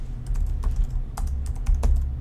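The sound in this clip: Typing code on a computer keyboard: many quick, light key clicks in an irregular rhythm, with a couple of sharper, louder strokes standing out from the patter.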